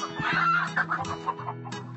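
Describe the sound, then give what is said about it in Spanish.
A hen clucks in a run of short, throaty clucks with a few brief higher squawks mixed in, fairly loud and alone with no talk. “La gallina había puesto huevos muy extraños.”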